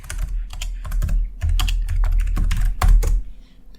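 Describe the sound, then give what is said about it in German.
Fast typing on a computer keyboard as a web search is entered: many crisp clicks in quick, irregular bursts over a steady low hum. “Wie kriege ich denn davon einen Link? Indem ich es einfach bei Google eingebe.”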